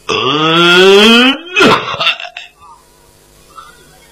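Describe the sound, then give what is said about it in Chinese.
A cough imitated by a storyteller's voice: a drawn-out voiced groan rising in pitch, then a sharp, harsh burst, after which the sound trails off into near silence. “就听府门里边有人咳嗽了一声”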